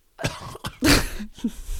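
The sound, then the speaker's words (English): Someone coughs while choking on a soggy, alcohol-soaked bean. A few harsh, throaty coughs come in short bursts, the middle one longest and roughest, with little else around them. “I'm choking on the bean. Oh, God. Don't choke on the bean.”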